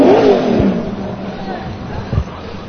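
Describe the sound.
A drag racing car engine revs with a loud, low, throaty roar that rises and falls. Crowd babble runs underneath it.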